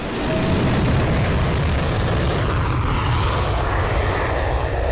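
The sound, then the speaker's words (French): A fighter jet taking off from the end of a runway, its engine a loud, dense roar that holds steady and rumbles for the whole five seconds, with no talk. “Le pilote se positionne en bout de piste en lien avec la tour de contrôle. Puis il décolle.”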